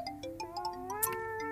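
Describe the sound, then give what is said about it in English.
A cat meowing to be let out, one faint, drawn-out call whose pitch shifts upward in steps, with a few light clicks above it. “she saw the back door and the garden and started meowing, going, let me out.”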